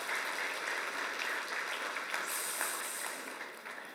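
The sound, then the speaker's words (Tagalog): A church audience applauds during a sermon, a dense, steady wash of many hands clapping with no talk over it that holds at full strength for about four seconds, then thins and fades slightly at the end. “Palakpakan natin ang ating Panginoon.”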